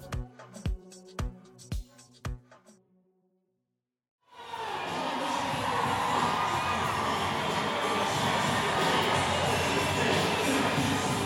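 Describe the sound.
Rodeo crowd cheering at the Industry Hills Expo Center east of L.A. as Black cowboys and cowgirls gallop into the stadium, opening with a few heavy rhythmic music beats, a short pause, then loud sustained cheering and whoops.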